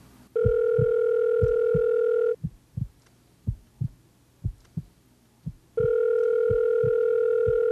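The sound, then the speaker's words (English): A telephone rings twice in long, steady, buzzing tones with a pause between them. A soft, regular thumping heartbeat runs underneath throughout and is heard alone during the gap. “The volume increased with every ring of the telephone.”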